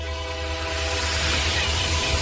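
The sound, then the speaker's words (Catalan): A train rumbles in a Renfe railway advertisement, with a steady, loud roll and a sustained horn-like tone held throughout. “Abriendo la noche con Renfe a 2000 por 1000. El futuro viene en tren, el medio de comunicación del nuevo milenio.”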